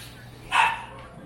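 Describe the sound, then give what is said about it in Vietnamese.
A dog gives a single short bark at a guesthouse in Knob Noster, one brief burst over a steady low hum. “Trong cái nhà trọ này có một con chó, nó là vậy.”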